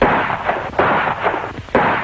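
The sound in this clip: Gunshots ring out: a few loud, sharp blasts with booming tails, spaced irregularly, with no voices.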